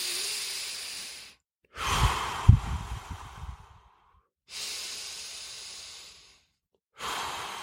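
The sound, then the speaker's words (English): Slow, deep breaths taken as a relaxation exercise: long, airy hissing inhales and exhales, each lasting a couple of seconds and separated by short silences, one breath carrying a soft low rumble. “it's really building that discipline to even just stop for 4 long breaths.”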